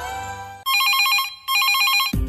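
A telephone rings for an incoming call with two bright, warbling bursts separated by a brief gap, preceded by a steady tone.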